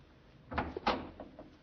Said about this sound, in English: You have found key? Yeah, here it is. Please inserting same in door with all possible speed.